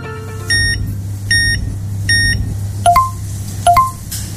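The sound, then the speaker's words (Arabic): Electronic beeps from a payment card terminal: three identical short, high beeps at even intervals, then two quick two-tone chirps, all over a steady low hum. “سمعت هالصوت؟ هذا ما مجرد صوت جهاز الدفع لمشترياتك”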